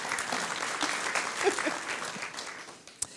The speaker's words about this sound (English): So please put your hands together again for Natasha Lester.